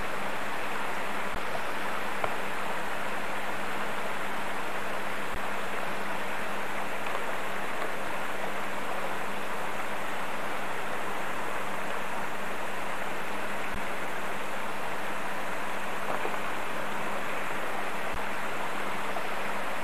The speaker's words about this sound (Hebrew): המים זורמים מתחת לשלג ולקרח.